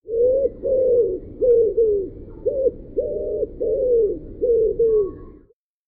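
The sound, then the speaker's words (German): A dove coos in a rhythmic series of low, hollow calls, some paired and some single, with nothing else heard. “das war die Taube”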